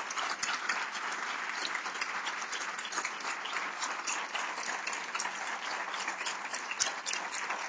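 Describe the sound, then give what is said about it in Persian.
Audience applause at a gathering honouring a team leader, a steady, fairly quiet stream of many hands clapping that continues evenly for several seconds. “به افتخارش تشویق درخور و شایسته بکنید”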